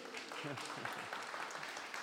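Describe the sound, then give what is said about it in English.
A faint round of applause from a group during a Bible story about Daniel's vision of a goat, light scattered clapping with voices mixed in. “Should we give the goat a round of applause?”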